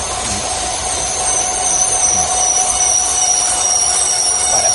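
Train wheels squealing as a train brakes to a stop at a red signal on a bridge: a loud, steady, high metallic screech over continuous rolling rail noise that keeps going until the end.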